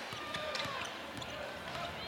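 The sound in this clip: A basketball is dribbled by a player on the left wing during a game, a few sharp, hollow bounces at an uneven pace, mixed into a steady wash of crowd noise.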